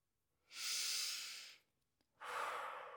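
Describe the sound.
Deep breathing during a guided relaxation exercise: two long, airy breaths, each lasting about a second, separated by a brief pause, with no talking.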